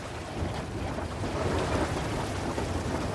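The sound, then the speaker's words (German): Storm wind and heavy sea batter a ship during a weeks-long ocean crossing to South America. The sound is a dense, steady roaring wash of wind and water with no clear breaks or voices. “Immer wieder geraten sie in einen Sturm, der jedes Mal aufs Neue das Schiff und seine Besatzung auf die Probe stellt”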